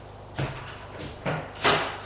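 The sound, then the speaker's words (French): A door is unlocked with a master key and opened: three dull clunks of the lock and door, spaced apart, the last one the loudest, over steady low background noise. “avec un passe-partout, ils ouvrent la porte et entrent.”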